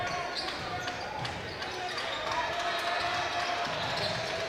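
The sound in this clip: Basketball bobbled on a gym floor during a high school boys' game, dull bounces buried in a constant roar of crowd noise, with a commentator talking over it.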